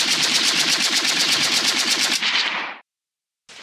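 Automatic gunfire in a radio drama shootout: a loud, rapid burst of many evenly spaced shots lasting about two seconds, fading into a short echoing tail, then silence before another burst begins.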